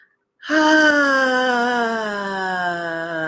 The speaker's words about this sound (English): Deep breath in. Let it out with sound.